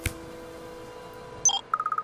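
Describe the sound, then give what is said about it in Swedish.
A smartwatch on the wrist sounds an alert: a couple of clear, high electronic tones, then a rapid string of short, evenly spaced beeps at a lower pitch. “Alert. Klockan på armen piper till. Alert. Skärmen blinkar rött.”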